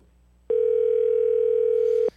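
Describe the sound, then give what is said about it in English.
A telephone ringing on a call while waiting for voicemail: one steady, unbroken electronic ring tone lasting about one and a half seconds, loud and alone with no talk. “Come on, voicemail. Come on. One more ring.”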